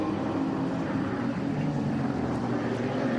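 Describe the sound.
A race car's engine drones loudly and continuously as it crosses the line to begin a lap, a dense steady roar with no clear rise or fall.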